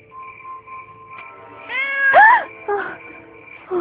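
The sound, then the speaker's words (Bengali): A cat meows a few times, with drawn-out, tonal cries that bend in pitch and grow louder after a quieter tonal start, heard alone without talking. “আরে আরে, ভয় পেও না, ওটা একটা বেড়াল।”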